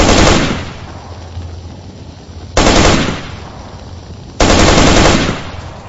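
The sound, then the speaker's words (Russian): Automatic rifle fire in three loud, harsh bursts, each starting abruptly and then fading before the next; no voices are heard. “И тут снова саданул автомат. Двумя короткими очередями и одной длинной.”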